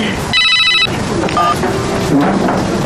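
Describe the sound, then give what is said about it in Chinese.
A telephone rings with an incoming call: two short bursts of bright electronic ringing, the first longer, over a dense, noisy background. “来电话，嗯，一朵来电话了。”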